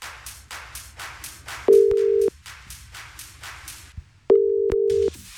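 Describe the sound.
Ringback tone of an outgoing phone call to a listener: two long, steady mid-pitched tones, each well under a second, separated by a pause of about two seconds, over rhythmic pulsing background music.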